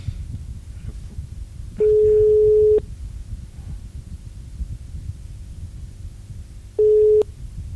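A telephone line tone sounds after a dropped call. Two steady, mid-pitched beeps play over a low rumbling hiss: one lasts about a second and a shorter one follows several seconds later.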